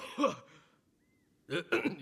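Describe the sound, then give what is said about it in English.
A page boy coughing: a short, rough throat-clearing burst, then after a near-silent pause a couple more harsh coughs in quick succession. “The page coughs.”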